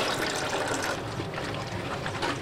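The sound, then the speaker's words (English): Steady rushing and splashing of liquid as thermos-sized film canisters holding reels of Kodak film are washed out over sinks in a photography lab. The sound is continuous and fairly loud, with no distinct separate events. “They are prepping the footage for the projector, bleaching the film with chemicals and washing them off.”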